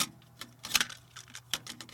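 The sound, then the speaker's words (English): A cassette tape being flipped over gives a few quiet, sharp plastic clicks and clacks, scattered unevenly across a couple of seconds. “That was a cassette flipping over in a cassette tape.”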